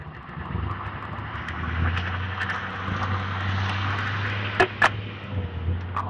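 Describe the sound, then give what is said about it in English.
Street traffic on a side street, heard as a steady low engine rumble and hum that continues throughout, with two brief sharp clicks near the end. “seems to be a lot of traffic here on the side street.”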